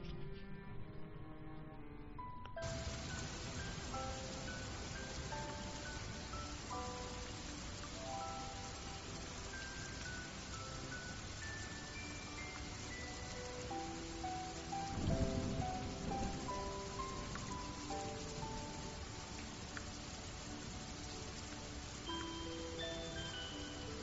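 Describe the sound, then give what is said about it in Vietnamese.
Rain pattering outside a window makes a steady, even hiss of drops that runs unbroken from start to finish at a soft, constant level. “Tiếng mưa tí tách bên ngoài cửa sổ.”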